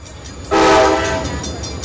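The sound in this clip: A train horn sounds one loud, sustained, harmonic blast near railway tracks on the banks of the Mississippi River in New Orleans. A low rail rumble comes before it and continues after the horn eases off.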